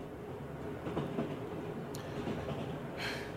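A train travels at night through Vietnam between Phù Cát and An Nhơn, its carriages giving a continuous low rumble with soft rhythmic clicks from the wheels on the rails.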